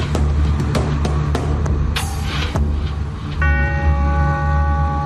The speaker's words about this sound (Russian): На площади ударил колокол. Долгий, протяжный звук, торжественный.